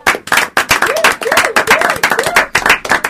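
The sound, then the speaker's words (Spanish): Audience applause fills a radio studio as a visiting band is welcomed, dense and loud clapping that holds steady for the full three seconds with no break. “Un aplauso para ellos.”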